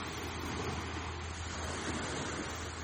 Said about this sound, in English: listening to the sound of the sea.